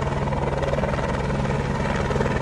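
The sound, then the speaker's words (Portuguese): Rescue helicopter engine and rotors as a rescued man is boarded: a loud, unbroken drone with rapid, even throbbing pulses and no talk. “Agora sim aí, o resgate definitivo do Ricardo Medeiros aí, ó. Agora ele vai embarcar na aeronave.”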